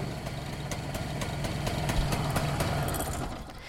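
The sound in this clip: A diesel engine idles on a Dieselameise, a small industrial transport vehicle shown in an industrial museum, with a steady low rumble and a fast regular pulsing throb that holds even for the whole stretch.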